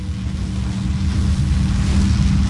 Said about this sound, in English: Meanwhile, the go-fast boat zips over the waves.